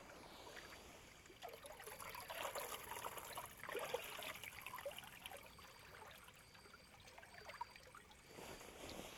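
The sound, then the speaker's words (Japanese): Water trickles and splashes steadily as hair is rinsed during a hair wash, a continuous soft rushing that swells after the first second and keeps going with small surges, with no talking. “せっかくですので、頭も少々洗わせていただきますね。では、すすいでまいります。”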